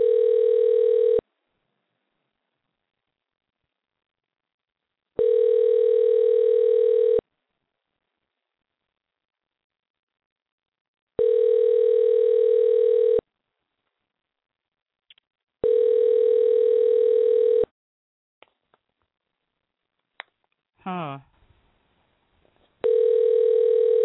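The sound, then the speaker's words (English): Telephone line tones while a call is being dialed: a steady low electronic tone sounds in repeated two-second bursts with silent gaps between them, followed by a few faint clicks and a brief warbling chirp before the tone returns. “So let's give him a dial.”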